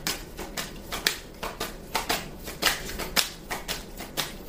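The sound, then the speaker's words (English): Tarot cards being shuffled and drawn, giving many crisp papery snaps and rustling bursts in a quick, uneven rhythm, moderately loud throughout with no voices. “Something's telling me to take this card. I don't know what it is, but I'm taking it. And I want to take two more cards. May I have two more cards,”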